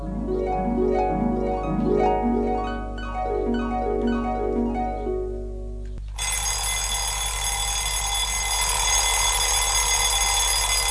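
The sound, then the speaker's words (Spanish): An alarm clock rings, first a tinkling melodic chime repeating a short tune for about six seconds, then a loud, continuous metallic bell ringing that runs to the end. “Hace 5 minutos que sonó despertador.”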